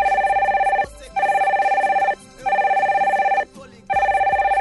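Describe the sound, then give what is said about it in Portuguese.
A landline telephone rings in four repeated bursts separated by short pauses. Each ring is a bright, steady warbling tone, loud and heard alone. “Telefone tocando. Esse meu telefone que às vezes falha, mas tá sempre aqui, todos os dias funcionando, né?”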